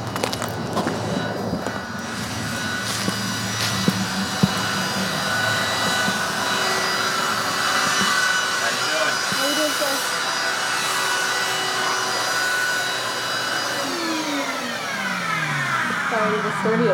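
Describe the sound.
A vacuum cleaner drones steadily as it sucks up sawdust from the ground of a carport where lumber sits on sawhorses. The constant whine has slowly shifting tones and a couple of brief knocks.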